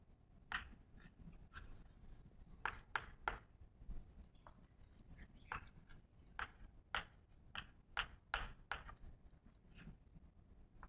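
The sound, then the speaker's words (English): A formula is written on a board in a quiet stream of irregular taps and short scratchy strokes. Many small clicks come in uneven bursts with brief gaps between them. “Okay, let me write a more general form of this first.”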